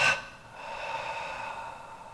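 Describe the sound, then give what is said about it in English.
A deep breath released during a guided breathing exercise: a sharp puff at the start, then a long, steady, airy exhale that carries to the end, moderately quiet, with no talk. “Two more, nice big inhale. And as you hold your breath, imagine it grabbing up all that stuff and then release it.”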